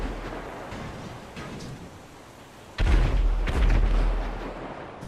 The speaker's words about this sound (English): Oh, these are the things that are exploding. Oh my god, that took forever. I think those are, the missiles that it fired.